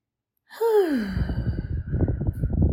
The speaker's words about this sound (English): Take a deep breath. Right now, just do it with me. Just one deep breath.